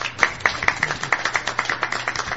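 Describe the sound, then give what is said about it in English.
Audience applause at a paranormal symposium: many sharp, distinct claps in a fairly even, quick rhythm, fairly loud and without talk. “And audience, if you applaud for these people, they did a great job.”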